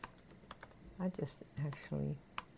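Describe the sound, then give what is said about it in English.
Keystrokes on a computer keyboard as a web address is typed, irregular clusters of sharp clicks with short pauses, while a voice speaks briefly between them. “And maybe if somebody is there who's listening to this, you could type it into the window there. Let's see here. Maybe I can even.”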